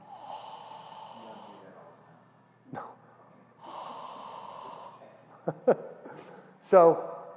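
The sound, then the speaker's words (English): Ujjayi (victorious) breathing with a slight throat contraction: two drawn-out, softly hissing breaths with a husky rasp, followed by a few short, sharp snort-like catches. “So victorious breath. And so the reason this is a very good technique to start off your meditation is that, again, it takes like you're really relaxed, but it takes like just a little concentration on your throat to get that slight contraction.”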